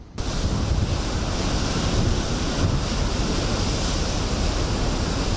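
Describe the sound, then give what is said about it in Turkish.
Large sea waves whipped up by strong wind of about 70 km/h off Istanbul in stormy, rainy weather: a loud, steady roar of surf mixed with wind buffeting, unbroken throughout, with no voices. “Saatte 70 kilometre hızla esen rüzgarla birlikte denizde dev dalgalar oluştu.”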